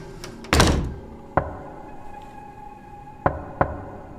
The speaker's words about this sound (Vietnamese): tiếng gõ cửa lại tiếp tục vang lên. Anh ơi, có phải là tiếng gõ cửa đúng không?